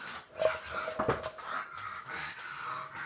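Two young dogs, about nine months old, playing tug-of-war and wrestling noisily, with wheezy panting, whimpers and short yips in a busy, uneven run of sounds.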